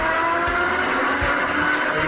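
Roaring engines and squealing tires from vehicles in an illegal street race on a city avenue. The sound is a continuous, dense wash of loud motor and tire noise with no pauses and no talking.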